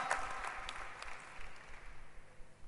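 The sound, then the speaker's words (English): Audience applause greeting a rapper and keyboardist, a steady patter of many hands clapping, faint and even throughout with no voices. “Clap your hands for Sister Dre”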